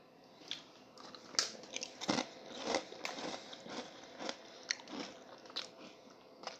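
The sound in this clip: Crunchy biting and chewing on food dipped in a homemade sauce. Many crisp, close bites and crackling chews come in an uneven rhythm, quiet and without talk.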